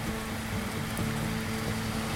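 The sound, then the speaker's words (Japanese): Heavy downpour of summer-like rain, a steady, dense hiss with no breaks or distinct drops, constant in loudness across the whole clip with no voices. “久しぶりの土砂降りですよね。”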